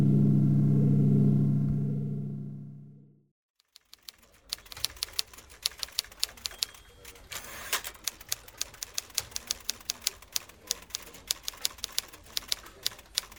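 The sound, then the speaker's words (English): Rapid clacking of an antique typewriter as a report is typed: many sharp, irregular keystrokes at a brisk, steady pace, sounding alone after a low sustained hum fades out at the start. “I can't believe you just typed that whole report on that antique machine.”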